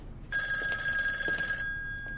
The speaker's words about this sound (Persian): قرار بود بهت زنگ بزنن؟ نه. الو؟